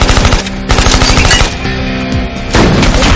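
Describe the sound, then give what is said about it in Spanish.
Machine gun fire in an action thriller shootout erupts as loud, rapid automatic bursts, with dense rattling shots running almost continuously and a brief drop in intensity before another heavy burst. “Con una metralleta, Mike hiere a Facebook y a otro hombre mientras Barrel corre a esconderse detrás de un coche y Sara dispara desde la azotea.”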